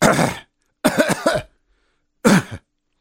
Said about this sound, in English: So he's got a bit of a cough, the president of the United States.